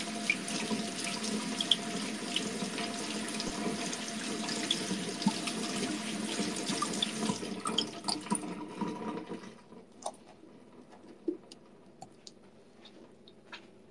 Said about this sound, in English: Washing beans!